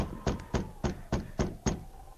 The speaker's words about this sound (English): A few moments later, he was pounding on the door.